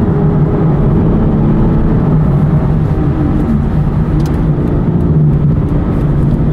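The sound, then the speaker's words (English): A car engine drones steadily after a downshift of a couple of gears while driving toward the motorway. The low hum is loud and even, with road noise underneath and no talking. “If I go down a couple of gears, that's lovely, isn't it?”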